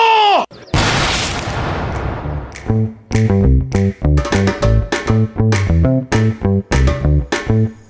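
A firing squad volley crashes out as one loud burst of gunfire, and its rough roar fades over a couple of seconds before rhythmic music with steady, punchy beats takes over.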